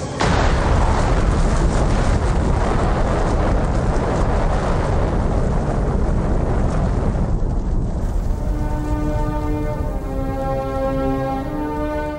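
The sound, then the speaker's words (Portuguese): The roaring blast of the Fat Man atomic bomb over Nagasaki: a loud, dense, continuous rumble that thins out after several seconds as a steady ringing tone emerges over the fading roar. “uma nova bomba, Fat Man, Homem Gordo, ainda mais mortal, foi lançada em Nagasaki.”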